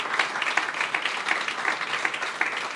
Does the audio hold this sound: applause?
yes